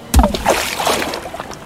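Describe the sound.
A body plunges into a river with a sharp, heavy splash, followed by a second or so of churning, sloshing water.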